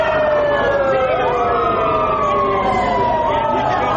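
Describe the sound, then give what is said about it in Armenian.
Police car sirens blare together outside a government building during a protest, switched on to drown out a speaker. Their overlapping wails sweep up and down in pitch, loud and continuous throughout. “Ոստիկանական մեքենաների ազդանշանները միացնելով փորձեցին խլացնել Բագրատ արքեպիսկոպոս Գալստանյանի ձայնը։”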